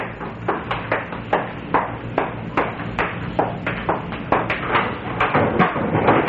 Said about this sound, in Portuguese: Estão batendo.